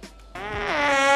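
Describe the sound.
A person's voice imitates a fart: one sustained, buzzy, reedy blat that starts after a short quiet gap, grows gradually louder and dips slightly in pitch partway through.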